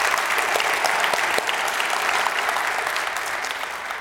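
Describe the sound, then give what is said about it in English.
Church audience applauding to welcome a new family, a dense, steady wash of clapping that holds for about four seconds and eases slightly toward the end. “Would you put your hands together and just welcome Dave Brown and his family to the Redeemer family.”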